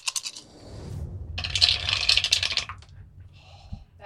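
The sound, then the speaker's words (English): A large handful of dice is rolled across a table during a tabletop role-playing game, starting with a clattering scrape and rattle, then a dense burst of tumbling clicks that thins out to a few last taps as the dice settle. “That's a lot of dice.”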